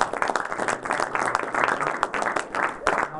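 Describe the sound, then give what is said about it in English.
Audience applause at a community event, many crisp claps forming a dense, uneven patter that continues throughout. “a round of applause”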